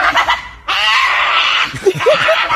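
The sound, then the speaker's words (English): A dog gives an unusual, strained growl: a long, raspy, fairly high sustained rumble, then a few short rising whines and yelps. “Well, this dog's growls are a little bit different.”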